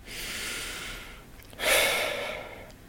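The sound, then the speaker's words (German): A slow, deep breath taken with eyes closed during a guided relaxation exercise: a long, airy inhale, a brief pause, then a louder, fuller breathy exhale. No talk. “dann schließt du einfach mal die Augen und nimmst einen ganz tiefen Atemzug.”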